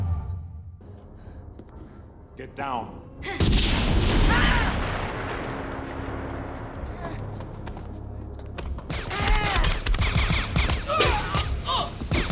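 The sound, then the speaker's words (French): Shotgun blasts from a Terminator 2 film scene, the T-800 firing a pump-action shotgun at an android, ring out as several heavy, booming bursts within a dense, loud film soundtrack of clatter and rumble. “Terminator 2 de James Cameron, scène mythique où T800, aka le Terminator, Arnold Schwarzenegger, tire au fusil à pompe sur Témil”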